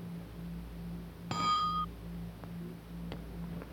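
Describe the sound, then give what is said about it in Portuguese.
A bell rung by its clapper striking it once gives a single bright, ringing tone with several partials. The tone dies away within about half a second over a faint, steady low hum. “Eis o momento inicial, quando o badalo bate fisicamente no sino.”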